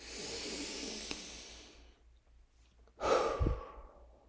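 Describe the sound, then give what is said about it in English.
A deep breath in and a long exhale, paced as a calming exercise. A breathy inhale lasts nearly two seconds, a short silence follows, then a stronger, lower exhale. No one talks. “breathe in the feeling that we felt of belonging and exhale the exhaustion of trying to fit in”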